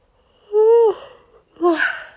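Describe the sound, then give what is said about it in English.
A person yawning: two drawn-out, breathy voiced yawns, the first longer with a gently falling tone, the second shorter and rougher after a brief pause. “I hope you don't mind that I'm yawning. Yawn number 8, maybe 9, don't know.”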